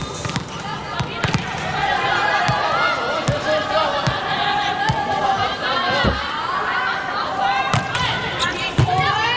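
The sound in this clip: A volleyball serve in a match with the Chinese team and a substitute server: several sharp ball hits over steady crowd chatter, with people talking throughout.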